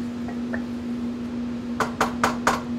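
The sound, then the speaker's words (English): Food being put into a KitchenAid stand mixer bowl gives four sharp, bright clinks close together, after a couple of faint taps. A steady low hum runs underneath and no one speaks. “So what we'll do is we'll put it in our KitchenAid here.”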